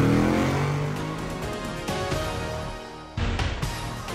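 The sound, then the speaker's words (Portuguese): A car engine accelerates after being shifted into first gear, revving moderately, with a sudden louder surge of engine noise near the end. “Engata primeira e acelera!”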